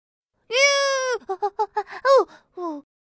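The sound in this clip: A lamb bleats in one long, steady, nasal call, then a quick run of short stuttering bleats, a wavering call and a final shorter one. All are clear and mid-pitched with no talk over them.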